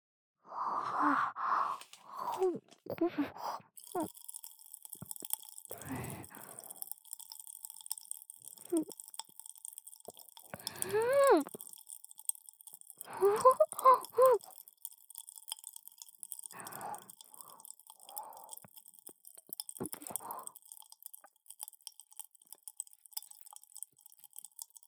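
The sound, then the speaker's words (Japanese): Chewing of a large mouthful of snacks, with many irregular moist crunches and smacking mouth sounds, fairly quiet, scattered in uneven bursts with brief pauses between them. “ちょっとお菓子の量が少なかったかな。じゃあ今度は大量に口に入れてみるよ。”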